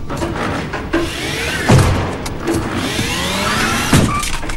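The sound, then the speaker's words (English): Electric whine of a motorised cart driving forward and then reversing in a narrow corridor, with the motor's tone sweeping up and down repeatedly and a couple of low thumps along the way. “Sitting at the controls, he drives forward a fraction and then reverses in an attempt at a three-point turn in the narrow corridor.”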